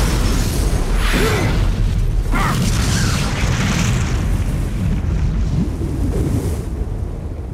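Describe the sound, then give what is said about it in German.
Explosion of a stored dynamite supply beside a henhouse blowing up a house: a heavy, loud roaring rumble fills the whole clip without pause, with no single sharp blast standing out. “Sie haben wohl Ihr Haus in die Luft gesprengt?”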